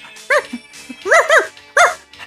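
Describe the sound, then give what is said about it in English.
A dog barks four loud, tonal barks in an uneven rhythm, two of them close together. Softer short sounds come between the barks. “And this is my dog.”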